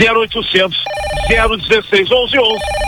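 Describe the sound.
A telephone rings with incoming calls to an order line, a sustained electronic ringing tone running briefly beneath continuous lively talk.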